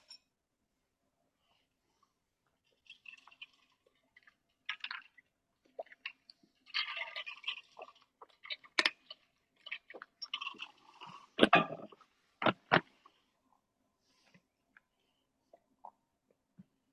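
Someone chews a candy bar with crisp, crunchy bites in an irregular rhythm, fairly faint and with no talk.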